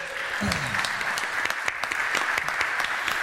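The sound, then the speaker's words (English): A church audience claps to welcome a woman at her baptism, with loud, steady, continuous applause throughout. “So let's put your hands together to welcome her.”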